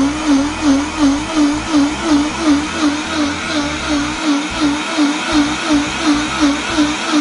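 A lidded blender grinding ingredients: a loud, steady whirring motor with a rapid, regular pulsing throb, running alone throughout.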